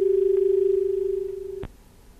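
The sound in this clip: A steady telephone line tone holds one pitch as a call-in line connects to the next caller, then cuts off abruptly with a sharp click, leaving faint hiss.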